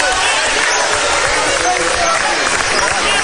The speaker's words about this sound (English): Still dribbling the ball is Trevor Bergman.